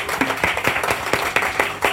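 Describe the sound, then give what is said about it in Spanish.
A few people clap in response to a call for applause, producing several distinct, scattered claps in a loose rhythm. “Por supuesto, un aplauso, por favor.”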